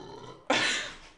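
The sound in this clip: A single abrupt burp into a microphone bursts out loud and noisy, then fades over about half a second.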